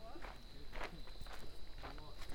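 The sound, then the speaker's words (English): Footsteps of a person walking, a steady series of soft scuffing steps at an even pace over constant background noise and a faint steady whine. “Let me check how many miles I've walked.”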